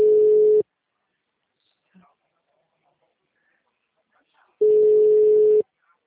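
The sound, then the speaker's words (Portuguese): A telephone tone after a dropped call sounds as two steady, mid-pitched electronic beeps, the first brief and the second about a second long, separated by a long silent gap. “Oi, a ligação caiu.”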